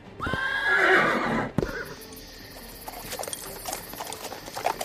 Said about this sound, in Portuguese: Então vamos pegar os cavalos e sair daqui.